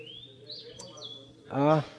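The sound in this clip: A songbird, not a koel, sings a short bright call near the end, preceded by thin high whistled notes over a low steady hum.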